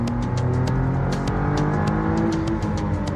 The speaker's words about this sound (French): on a une bonne délivrance de la puissance progressive, quand même avec un coup de pied au cul quand il y a le turbo qui se met en route